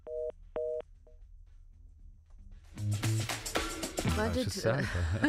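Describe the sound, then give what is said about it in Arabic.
Phone line tones as an incoming call connects on a radio show: two clear beeps, then a few softer short blips, followed by voices talking. “خلينا في الحين جاء اتصال، يلا ناخذه.”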